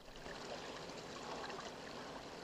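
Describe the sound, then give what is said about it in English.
Water in a channel flowing through a cavern, a faint, steady rushing trickle that stays even throughout with no other sounds. “scurries towards the water channel that flows through the middle of their cavern home and takes a scoop.”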